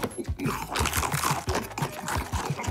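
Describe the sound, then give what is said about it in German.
Crisp bites into a sweet cookie followed by brisk crunching and chewing, many quick crunches in an uneven rhythm, close and fairly loud. “Ich hab dich so lieb. Ich könnte dich aufessen, was ich jetzt auch mache.”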